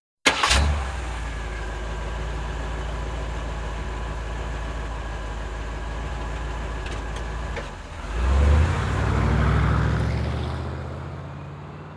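A car engine drones steadily as it drives into a forest. The low, continuous rumble holds even, then briefly dips and swells again near the end.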